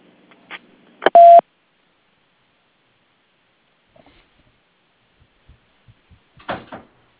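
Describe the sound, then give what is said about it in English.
A voicemail message tone: one short, steady electronic beep at a fixed mid pitch, framed by a couple of brief clicks, followed by near silence with a few faint ticks. “Leave your message at the tone.”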